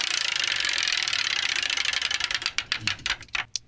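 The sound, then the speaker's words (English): A game-show prize wheel spins, starting with a rapid, even rattle of ratcheting clicks. The clicks then spread out into slower, separate ticks as the wheel winds down to a stop. “we're going to give the prize wheel a little spin here and see what it lands on. What it lands on, we play that game. Let's spin the old prize wheel here.”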